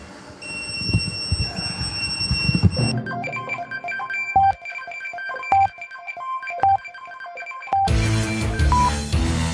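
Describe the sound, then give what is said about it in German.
An on-call pager goes off with a melodic run of bright electronic beeping tones that hold steady pitches, broken by a few short gaps, after a noisy, jumbled opening. “Und jetzt geht hier der Pieper los.”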